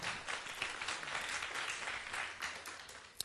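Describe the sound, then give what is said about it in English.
Audience applause greets a performer arriving on stage at a live event, a dense, steady patter of many hands clapping that stays fairly faint and thins slightly near the end. “俾啲掌聲佢先”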